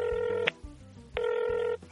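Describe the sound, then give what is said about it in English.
Ringing of an outgoing telephone call: two bright, buzzy ring bursts of about half a second each, separated by short pauses, with a third ring just starting at the end. “Okay, guys, it's ringing.”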